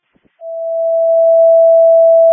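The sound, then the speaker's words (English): Fire station alerting tone under test: after two faint clicks, a loud, pure steady tone sounds and holds unbroken for about two seconds. “I'm going to need another test of our station tones, please.”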